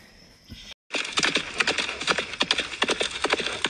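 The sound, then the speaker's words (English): Galloping horses' hooves clip-clop in a rapid, irregular stream of hard, woody clatters. The clatter runs steadily after a brief pause near the start. “Everybody gallop!”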